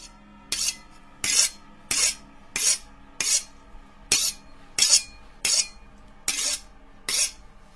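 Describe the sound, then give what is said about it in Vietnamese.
Rasping strokes of a knife blade being sharpened, about ten even, regularly spaced scrapes, bright and fairly loud over a steady tonal background. “Hắn đưa ngón tay thở vào lưỡi dao, thấy chưa đủ bén ưng, hắn lại lối hối mài tiếp.”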